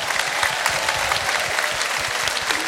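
Audience applause welcoming two performers onto a live show, a brief, steady burst of dense clapping from many hands with no letup.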